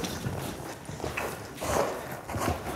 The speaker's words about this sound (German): ein völlig durchgedrehtes Pferd in ihrer Reithalle